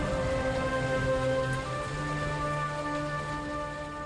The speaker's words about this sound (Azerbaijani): Yağış.